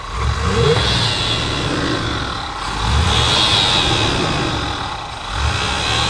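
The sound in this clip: A car engine is revved by hand at the carburetor, with a loose V-belt on the alternator: a loud, steady roar that swells in a couple of revs.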